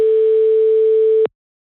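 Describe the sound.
Telephone ringing tone heard while placing a call: a single steady, pure mid-pitched tone that holds for just over a second and then cuts off abruptly into silence.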